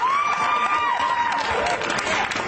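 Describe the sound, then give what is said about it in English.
Audience cheering and clapping, a loud, steady wash of crowd noise and applause that carries on without a break. “the people out there in that audience who are cheering for that”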